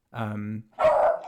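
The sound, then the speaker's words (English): A dog barking: two loud bursts close together, the first drawn-out, low and tonal like a yowl, the second harsher and noisier, with nothing else audible between them. “Sorry, this is my dog. He just keeps showing his appreciation.”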